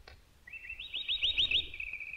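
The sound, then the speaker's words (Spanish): A pet canary gives a brief trilling chirp: a quick run of high, rapidly repeated notes lasting about a second and a half, soft and clear against a quiet background. “Así que usted llama Richelieu al canario porque siempre deseó un cardenal.”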